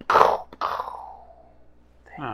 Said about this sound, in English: you hear the crack of a sonic boom. Followed by an immediate, another sonic boom, just like this.